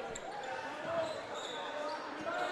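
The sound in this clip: A basketball is dribbled during a game, with a few soft, irregular bounces beneath constant crowd murmur and voices.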